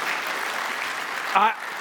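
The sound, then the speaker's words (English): A short burst of audience applause for the church's pastors. Dense clapping runs throughout, and a brief voice calls out over it near the end. “Let's give them a hand clap of appreciation”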